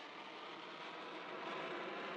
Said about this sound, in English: on an Air Force jet streaking north to the polar ice cap